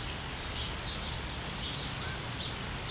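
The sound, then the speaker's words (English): Rain falls on a chilly day, a steady, even hiss of dense noise that holds unchanged throughout, with no talk. “and there's the rain, so the rain has come again.”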